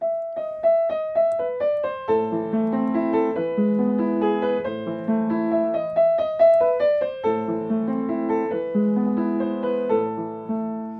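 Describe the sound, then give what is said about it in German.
A famous classical piano piece played solo, with a light melody of quick alternating notes over broken-chord accompaniment; the notes ring clearly and steadily, with brief pauses between phrases. “Der hat ein Stück geschrieben, da steht drüber für Elise. Vielleicht kennt ihr das, das klingt so.”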